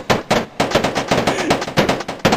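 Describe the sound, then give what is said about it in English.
Rapid gunfire sound effect: many sharp, loud bursts in quick, uneven succession, like automatic weapon fire, with no voices. “We're getting shot up right now.”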